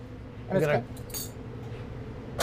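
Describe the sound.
A dish is handled while plating burrata, giving a few light clinks and knocks of crockery amid quiet talking.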